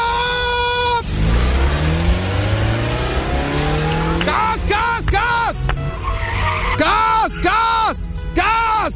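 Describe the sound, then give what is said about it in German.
A motorsport racing car engine revs in a series of sharp bursts that rise and fall in pitch, following a sustained, loud engine drone. “im 1Live O-Ton-Charts-Archiv geguckt, was wir da so gefunden haben in Sachen Motorsport, weil es ist ja am Ende Motorsport. Und vielleicht klingt's in Sonsbeck dann gleich so.”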